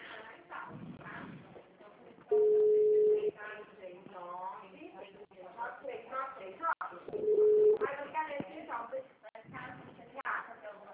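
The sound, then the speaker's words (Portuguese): A telephone busy signal sounds while calling a Santander bank branch in Ritinga: two steady, even tone beeps of about a second each, heard under continuous talk. “Eu estou tentando ligar lá no Santander de Ritinga, que trabalha o marido da minha amiga.”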